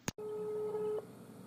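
Telephone ringback tone on an outgoing call: a short click, then a single steady, mid-pitched tone lasting under a second, faint, with no talk.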